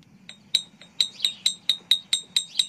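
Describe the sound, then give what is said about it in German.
Bright, ringing clinks of a metal object striking a brown glass bottle outdoors in a garden: a steady run of many sharp, high taps, each with a short shimmering decay, over a low background hum. “Es ist quasi mit einem metallischen Gegenstand gegen eine braune Flasche zu hauen.”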